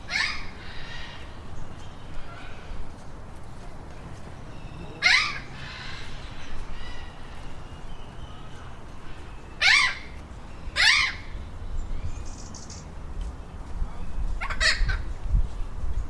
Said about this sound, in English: of exotic birds and distant monkey calls echoing through the canopy.